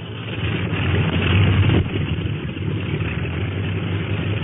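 Steady drone of the China Clipper flying boat's engines warming up, a low rumbling hum that swells briefly, then settles back to an even idle with no voices.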